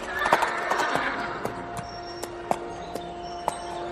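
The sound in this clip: Horses neighing and galloping: a high, shaky whinny at the start, then clopping hoofbeats in an even, spaced rhythm to the end.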